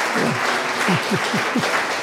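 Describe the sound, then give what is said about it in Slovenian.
Audience applause at an evening event, a dense steady patter of many hands clapping at even loudness for two seconds, with no voices over it. “A bi vi en aplavz dali Blažu, da že 10 let, 15 let drži z mamo, ne?”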